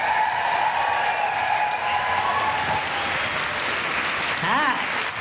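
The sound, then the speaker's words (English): An audience at a live International Women's Day event cheers, whoops and applauds, with dense, steady clapping and raised shouts that continue throughout. “do general woohooing noises for Felicity Ward”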